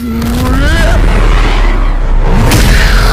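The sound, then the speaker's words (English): An explosion booms with a deep, heavy rumble that fills the whole stretch and stays loud and sustained throughout. “And it explodes, and, and all of the light is extinguished from the room.”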